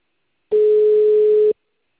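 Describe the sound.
A telephone tone after a dropped call: one steady, mid-pitched beep lasting about a second, clean and alone, with no talk.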